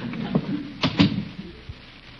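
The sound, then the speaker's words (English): A house door is opened, giving a few soft clunks and a brief rattle close together, fairly faint, with no voices. “You get inside and answer the door.”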